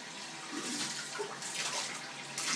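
Shower water runs in a steady, even hiss, broad and unbroken for the whole stretch, with only slight swells in level and no voices.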